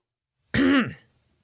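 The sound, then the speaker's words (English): A single throat clearing, one short rough burst of about half a second that fades quickly into silence, with no talk around it. “I have something in my throat.”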